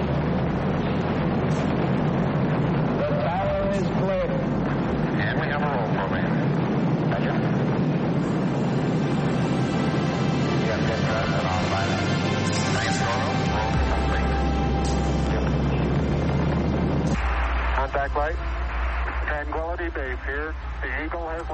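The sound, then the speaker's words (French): Rocket engines run at liftoff: a deep, continuous roar builds under a voice calling out the launch sequence, growing heavier and lower in the second half. “Ignition sequence start. Engines on. 5, 4, 3, 2, 1. All engines running. Launch commit. Liftoff. We have liftoff.”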